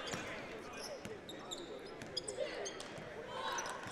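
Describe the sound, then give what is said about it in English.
A basketball is dribbled during a high school boys' game, with several sharp bounces standing out over steady crowd noise. “He's got the dribble.”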